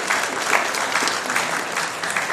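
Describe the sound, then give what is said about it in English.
Applause from a church audience, continuous dense clapping that stays steady and full from start to finish. “Now, I think she deserves a great big clap, and she's going to come down and see you all.”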